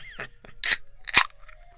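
A can of Rip It energy drink being opened: two short, bright bursts, a sharp metallic click and a quick fizzing release, faint and brief.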